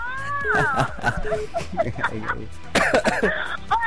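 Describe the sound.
Coughing: a few harsh, breathy bursts and some throat clearing, mixed with voices talking around them.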